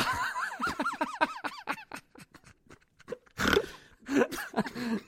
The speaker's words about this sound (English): I got you to snort on a podcast there, huh?